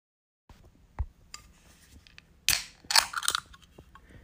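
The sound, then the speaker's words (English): An ice cold Loco coffee can is opened: faint clicks and handling first, then a sharp pop of the tab followed by a few bursts of bright fizzing hiss. “Do you hear that? That's the sound of an ice cold Loco coffee.”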